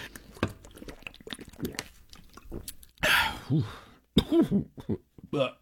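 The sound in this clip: A person clearing their throat: two harsh, raspy bursts that stand out among softer mouth noises.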